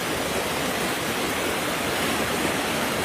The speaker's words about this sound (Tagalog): Ngayon, ito ay may napakalakas na daloy ng tubig.